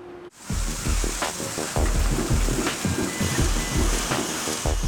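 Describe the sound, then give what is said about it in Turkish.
Buzzing, spinning machinery in a banknote printing plant: a steady dense mechanical whir with rhythmic low thumping and clattering cycles repeating throughout, loud and with no voices. “Alt katta vızıldayan, dönen bir sürü makine, bir sürü robot, bir sürü tekerlek ve çokça gürültü var.”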